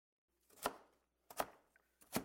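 A knife chops radish into dice with three separate, crisp strikes, evenly spaced and fairly quiet, with no talking.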